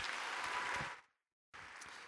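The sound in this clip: An audience applauds to congratulate a graduate at a graduation ceremony. The dense, steady clapping fades out into brief silence, then resumes at full strength.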